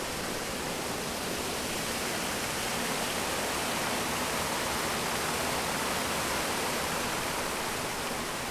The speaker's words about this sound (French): Donc ici par exemple on a un barrage qui fait quasiment 2 mètres de dénivelé, donc on considère qu'il est totalement infranchissable pour l'ensemble des espèces qui vivent ici.